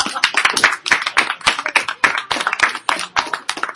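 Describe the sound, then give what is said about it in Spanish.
An audience at a comic convention giveaway applauds with loud, dense hand clapping from a small crowd, the claps steady and busy throughout with no voices. “Un fuerte aplauso para Joe”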